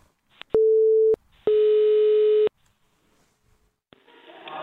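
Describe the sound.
Telephone ringing tone on a call to a foreign ministry office: two steady mid-pitched tones, the first shorter than the second and separated by a brief gap, followed by quiet.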